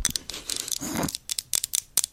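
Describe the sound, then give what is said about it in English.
Plastic crinkling made for ASMR: sharp, irregular crackles and tearing-like snaps, with a denser rustling burst near the middle, followed by many quick, separate crinkles. “That was my attempt at plastic sounds.”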